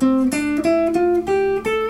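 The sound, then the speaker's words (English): A guitar plays C major scale notes starting from A, picking six single notes that climb step by step at an even pace, each ringing clearly on its own. “And then if you play the notes of C major from A to A, it'll sound like this.”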